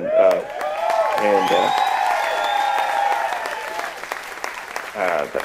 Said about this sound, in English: Please give all these artists a round of applause